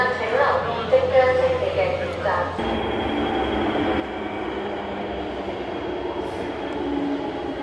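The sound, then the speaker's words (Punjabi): A train at Lok Ma Chau station in Hong Kong, the first service departing for mainland China, with crowds boarding. A steady, loud rumble runs throughout, and voices are heard during the first few seconds. “Hong Kong ਦੇ ਲੋਕ ਮਾਚਾਓ station ਤੋਂ ਮੁੱਖ ਭੂਮੀ ਚੀਨ ਲਈ ਰਵਾਨਾ ਹੋਣ ਵਾਲੀ ਪਹਿਲੀ ਰੇਲ ਗੱਡੀ ਤੇ ਸਵਾਰ ਹੋਣ ਲਈ ਲੋਕਾਂ ਦੀ ਭੀੜ ਲੱਗੀ ਹੋਈ ਹੈ।”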